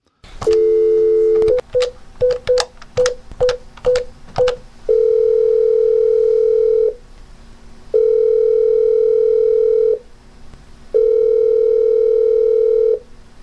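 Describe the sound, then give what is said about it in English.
Telephone line tones ahead of voicemail playback: a steady tone, then a rapid series of short dialing beeps with clicks, followed by three long, loud, even tones separated by brief pauses, with no voices. “Do you want to check out the voicemails? Oh, yes. Someone called.”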